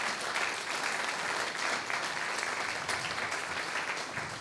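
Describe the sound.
An audience at a carol service applauds the band with continuous, even clapping that stays at a steady level from start to finish, with no voices standing out.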